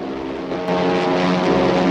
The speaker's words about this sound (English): With a smile, he directs his plane towards them.